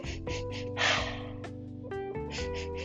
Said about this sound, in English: That's a very weird way to breathe, but if you breathe like that, go ahead.